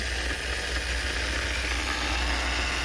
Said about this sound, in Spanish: Resulta que la espolvoreadora 3000 tenía demasiada fuerza en el motor.